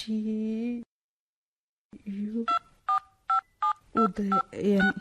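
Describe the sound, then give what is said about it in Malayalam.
Telephone keypad tones beep in a quick series of short, evenly spaced pulses as a number is dialed, after a voice is heard at the start. “ആ phone ഒന്ന് തരൂ please. ഉദയനെ തന്നെ വിളിക്കാം.”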